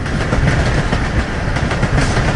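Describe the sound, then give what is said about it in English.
An electric train runs on rails, hauling sulphur from a mine down to a harbour. A loud, steady rumble carries a rapid rhythmic clatter of wheels over the track, with no voices. “Electric trains carried the sulphur from the mine down to the harbour in Orkanger.”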